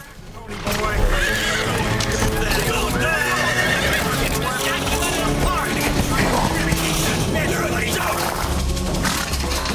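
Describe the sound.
Racehorses whinny in their starting stalls before a race. Several high, wavering neighs rise over a constant background of noise, with some hoof clatter and restless stamping mixed in.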